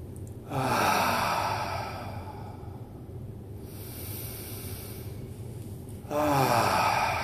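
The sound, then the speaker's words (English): Deep breaths taken at the close of a guided meditation, heard as two long, breathy rushes of air, one at the start and one at the end, with quieter steady breathing in between. “Now let's do 3 deep breaths and come back to this room.”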